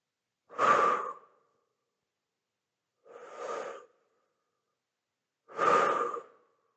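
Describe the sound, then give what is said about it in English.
Deep breathing in and out during a relaxation exercise: three slow, full breaths, each a soft, airy rush about a second long, separated by quiet pauses, with no talk. “and breathe. Breathe in and out. And do that two more times.”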